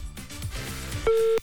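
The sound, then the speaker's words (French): A WhatsApp phone call ringing out: one short, steady electronic ring tone sounds near the end, after a brief stretch of busier, layered sound. “Du côté du WhatsApp, le téléphone va sonner chez quelqu'un.”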